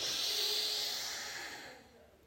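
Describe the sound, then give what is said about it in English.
A deep inhale during guided breathwork: a soft, airy hiss that swells briefly, then tapers and fades away over about two seconds. “And take in a deep breath.”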